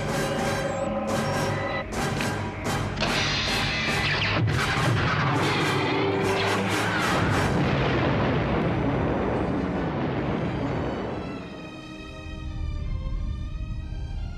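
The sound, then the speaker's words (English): Super laser firing and explosions in a space video game: loud, pulsing electronic laser blasts with dense tonal sweeps for several seconds give way to a roaring explosion rumble that dips, then swells again with warbling tones. “Admiral, fire the super laser.”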